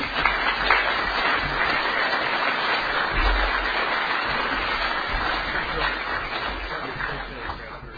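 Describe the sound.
Applause from an audience welcoming a speaker at a talk on alcoholism, a dense, steady clatter of clapping holding evenly for about eight seconds.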